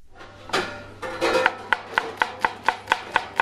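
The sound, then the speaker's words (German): Onions being chopped in a kitchen where about 30 people work. A few irregular knocks give way to a fast, steady run of many sharp knife strikes on a cutting board, over a low hum. “Etwa 30 Leute hacken Zwiebeln, putzen Salat oder waschen ab.”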